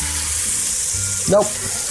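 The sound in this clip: Meat for a ragu sizzles steadily in a frying pan, the hiss continuing evenly while a short, louder burst of scraping marks the moment it is flipped.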